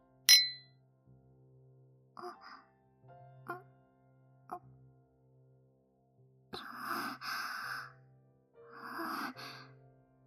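Glasses clink once in a toast, a single bright, sharp chime near the start, followed by quiet stretches with soft breathy sounds and faint rustling.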